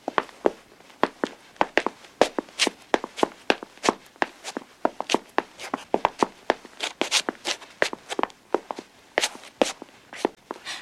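Footsteps of several people walking upstairs, many steady thuds and scuffs in an even walking rhythm throughout.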